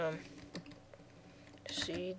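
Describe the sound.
A password is typed on a computer keyboard: a few light key clicks, with brief speech at the start and again near the end.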